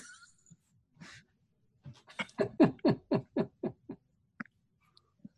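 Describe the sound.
Dog whining in a run of short, high-pitched whimpers: a few scattered cries first, then a quick burst of about eight close pulses, followed by a couple of isolated yelps.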